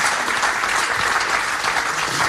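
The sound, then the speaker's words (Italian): An audience claps for a poet at a poetry reading, a brief, unbroken burst of many hands that holds a steady, fairly loud level from start to finish. “Facciamo un bel applauso.”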